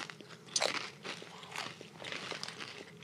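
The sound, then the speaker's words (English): Crunching of a fried green tomato chip with remoulade being bitten and chewed: a sharp crisp bite early on, then many softer crackly chewing crunches, faint and with no talk. “I'm not getting fried green tomato from this. Are you just getting remoulade? I don't know what I'm getting. It tastes like just a burnt chip.”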